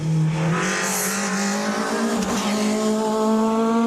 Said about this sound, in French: Pezzuti, l'homme que je suis venu rencontrer, c'est un pilote de rallye qui est un des rares possesseurs de 306 Maxi, est en train de faire chauffer justement cette 306 sur une piste un peu humide.